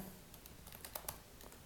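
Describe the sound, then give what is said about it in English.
Fingers type an email on a computer keyboard, making soft, irregular key clicks at a quiet level, with a few slightly sharper taps. “I'm going to type in my email,”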